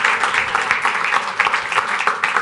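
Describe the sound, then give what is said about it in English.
An audience at Super Week claps in answer to a show-of-hands question, giving dense, fairly loud clapping with scattered sharper peaks that continues throughout. “By clapping, how many are here at Super Week for the very first time?”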